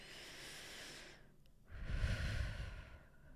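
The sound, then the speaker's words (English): A person draws in a deep breath and lets it go, quiet and without speech. A soft, airy inhale, a brief pause, then a longer, fuller exhale with a low rush, like a sigh. “Let's take a deep breath now together.”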